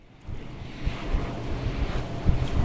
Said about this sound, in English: The 130 wind turbines you can hear behind me